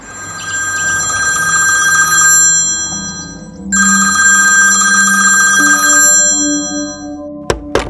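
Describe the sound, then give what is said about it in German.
A telephone rings in two long, shrill trilling bursts separated by a brief gap, each steady and loud. A couple of sharp clicks follow at the end. “Darf ich ihn anrufen? Natürlich, wenn du willst.”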